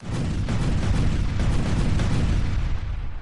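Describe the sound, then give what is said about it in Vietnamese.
Loud, rumbling explosions as magic treasures burst in mid-air in a fantasy battle, with many booming blasts running together into a dense roar that fades slightly toward the end. “Oái oàm thay, những pháp bảo này sau khi được tế ra thế mà trực tiếp nổ ầm ầm giữa không trung.”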